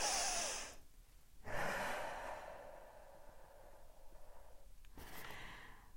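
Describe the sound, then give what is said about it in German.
A deep breath in and out: long, airy, breathy rushes of air, with a slow drawn-out exhale in the middle and a softer breath following, and no talking. “Deswegen atme ich jetzt mal ganz tief durch.”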